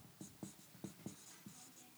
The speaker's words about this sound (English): I'm going to write on the top of this board, things I am worried about.